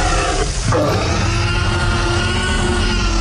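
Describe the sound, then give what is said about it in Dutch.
The T-Rex roar sound effect from Jurassic Park: a loud, deep, rumbling animal roar that rolls on for the whole clip, with a rough, growling texture and no voices. “Het is het geluid van de T-Rex, althans... Ja, uiteindelijk door Steven Spielberg geïnterpreteerd bij Jurassic Park.”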